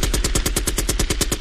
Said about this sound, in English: Shots fired.